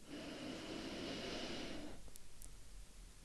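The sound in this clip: A slow, deep breath drawn in: a soft, airy inhale lasting about two seconds, then fading to near quiet.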